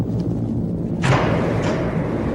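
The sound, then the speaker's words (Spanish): A torpedo launched into the water from a submarine, a sudden heavy thud followed by a rushing hiss that fades over a constant low mechanical rumble. “Lanzamos el proyectil. ¡A toda velocidad! ¡Torpedo en el agua!”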